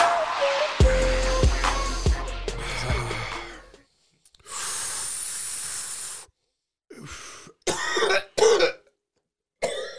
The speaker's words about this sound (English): Based off of your cough.